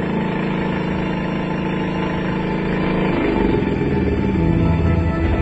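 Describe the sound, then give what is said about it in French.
A car engine runs with a suspect, faulty-sounding exhaust, giving a continuous low, rough rumble that stays steady and grows slightly louder toward the end, with no voices. “c'est pas bon le bruit, le bruit il est pas bon. Va regarder. Et eh, ça c'est l'échappement”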